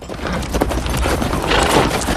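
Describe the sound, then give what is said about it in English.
A horse trotting under a rider, turning in a circle, with many quick hoofbeats in a steady, continuous clip-clop rhythm throughout. “Billy turns his horse in a circle as Floyd trots up to him.”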